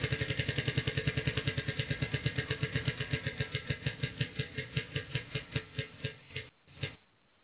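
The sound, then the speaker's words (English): A prize wheel spins with rapid, rhythmic clicking that gradually slows, the ticks spreading farther apart until a final few sound and the wheel stops. “Spin the wheel. See if we can find you.”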